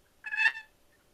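A turkey yelp made on a box call: a single short, raspy, high-pitched note, moderately loud against otherwise quiet surroundings.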